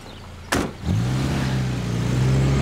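A car driving away: a sudden sharp burst of noise, then a steady, low engine hum that holds evenly to the end.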